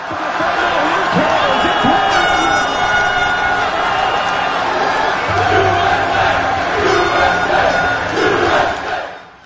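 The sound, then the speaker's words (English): Soccer fans cheer at the official watch party in San Pedro Square, San Jose, during a U.S. match being played in Seattle: a loud, sustained crowd roar of shouting and cheering that holds steady throughout. “The game is in Seattle, but soccer fans are watching from all over the Bay Area. Here's how it sounded at the official watch party in San Jose, San Pedro Square.”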